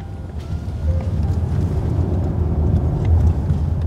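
Steady roar of a car driving with its windows open on the way into Manhattan, with loud, constant road and wind rumble and no voices.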